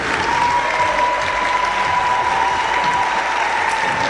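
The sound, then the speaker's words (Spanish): Loud, sustained audience applause at a ceremony honoring participants from towns in Chile and Argentina, a dense, steady wash of many hands clapping for about four seconds with no voices on top. “Voy a nombrar para que le demos un fuerte aplauso a los últimos participantes.”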